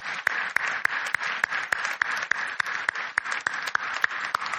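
Applause from an audience welcoming a guest onto a stage for a morning interview, with sharp claps at a steady, even pace running through the whole stretch.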